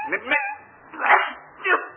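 A dog whines and whimpers in a few short, high-pitched cries separated by quiet gaps, with no talking over it.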